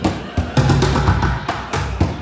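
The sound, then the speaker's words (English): Drumming on upside-down plastic pails: several hollow, punchy thumps with sharp attacks, struck in a loose rhythm over a busy, continuous background. “He's the guy who bangs on upside-down plastic pails.”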